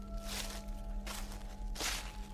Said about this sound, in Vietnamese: Ở bên ngoài bắt đầu có tiếng động, tiếng sỏi đá lạo xạo, tiếng bước chân dẫm lên lá cây loạt xoạt.